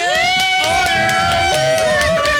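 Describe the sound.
A studio audience at a quiz show taping cheers loudly and continuously, with whoops, shouts and whistle-like tones rising over a dense wash of voices throughout.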